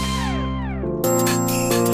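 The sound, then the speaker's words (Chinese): A telephone rings on a Beijing radio shopping hotline with electronic chiming tones. Falling, gliding notes give way to steady, bright ringing that pulses again near the end, with no talk. “我天哪，看来我们的这个电话真的是打爆了一样哈”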